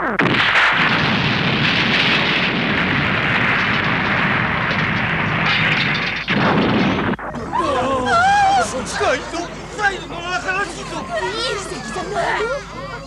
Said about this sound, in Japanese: この振動の伝わり方は爆発だ。